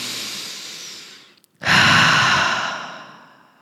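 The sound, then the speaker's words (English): A deep human breath, drawn in through the nose as a steady airy hiss, then after a short pause let out through the mouth as a louder, fuller exhale that slowly fades. “So if a nice deep inhale through the nose and out the mouth feels good for you,”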